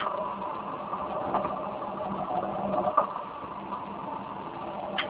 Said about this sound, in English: Now I start the aqua fuel generator.